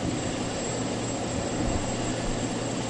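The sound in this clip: Airplane engine in a video game: a steady, dense droning roar that holds a constant level throughout, with no pauses or voices.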